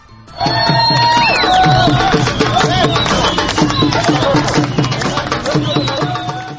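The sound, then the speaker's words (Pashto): Loud drumming and crowd noise from a Kabul crowd welcoming Afghanistan's national cricket team, winners of a 12-nation Asian tournament, with attan dancing. A steady, dense drumbeat runs throughout, with high melodic lines over it. “په کابل کې نن خلکو د افغانستان د کرکټ ملي ټیم ته چې د 12 آسیایي هیوادونو په لوبو کې اتلولي وګټله د ډولونو په وهلو او اتڼونو سره هرکلی ووایه.”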